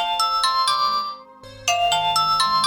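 A telephone rings with an incoming call: two bursts of bright, high-pitched warbling electronic ringing with a brief silence between them, each made of several quick pulses.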